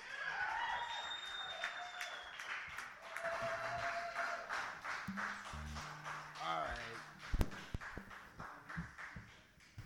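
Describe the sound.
Audience applause for a performer during a live show, a steady wash of clapping that runs throughout with a man's voice speaking over it.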